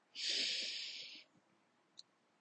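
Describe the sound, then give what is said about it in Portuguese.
A deep inhale through the nose during a guided breathing exercise: one loud, airy hiss of about a second that gradually thins out, then a small faint click after a pause. “Agora você vai inspirar.”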